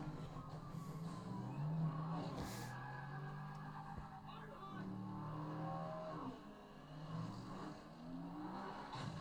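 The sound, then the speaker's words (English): The Ferrari engine of the Transformer Dino in a movie scene, revving in several surges whose pitch rises and falls, mixed with other film effects and noise. “Have you not enjoyed these scenes better when it's just him? The fucking Ferrari Transformers named Dino.”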